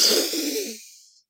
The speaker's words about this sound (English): It is the inhale through the nose. Let's do it. Inhale.